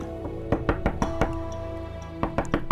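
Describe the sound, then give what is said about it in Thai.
Knuckles rap on a house door in a quick run of sharp knocks, then a pause and a short second burst, over a steady low tone underneath. “เดินเข้าไปจนถึงประตูบ้าน เฮงเจียเข้าไปเคาะประตูร้องเรียก”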